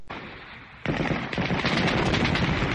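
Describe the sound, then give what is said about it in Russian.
Gunfire volley aimed at a fleeing man near a forest edge, with return shots from the woods: a dense, rapid crackle of many overlapping shots that grows louder after the first second and keeps rattling without a pause. “Мы дали по нему залп, и он, бросив все, поспешно скрылся в лесу. Оттуда тоже загремели выстрелы.”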